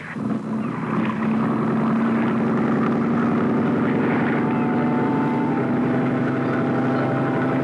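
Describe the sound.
A dive boat's engine revs at sea, a loud, continuous droning hum that holds steady and climbs slightly in pitch.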